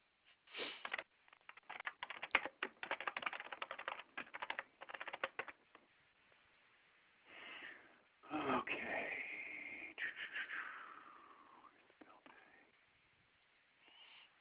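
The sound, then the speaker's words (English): Typing on a computer keyboard is heard over a phone line as a rapid run of faint clicks, followed by a few quieter muffled sounds. “I'm just going to put you on speaker for a second just so I can type.”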